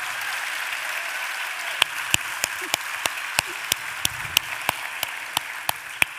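An audience applauds to welcome author Catherine Chidgey at a book event. A broad, sustained clapping hiss carries a steady rhythm of sharper, evenly spaced individual claps on top through the second half.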